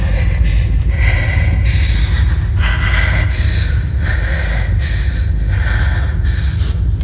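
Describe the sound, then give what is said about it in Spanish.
A woman breathes heavily and gasps while trying to calm a panic attack in a bathroom. The harsh, loud breaths run almost continuously, with repeated rough intakes throughout. “Mira al espejo y trata de controlar su respiración.”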